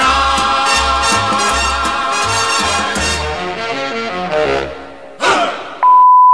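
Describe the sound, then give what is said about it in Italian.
An answering machine beep sounds once as a single loud, steady, mid-pitched tone at the end. Upbeat mambo-style music with bass notes and bright melody plays before it and fades out. “Ormai, ovviamente, non mi meraviglio di trovare una segreteria anche a casa tua.”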